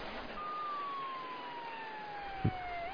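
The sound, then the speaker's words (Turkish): A faint police car siren sounds as one steady tone that slowly falls in pitch, with a brief low thump near the end. “Aman Allah'ım, aman Allah'ım, polis arabaları.”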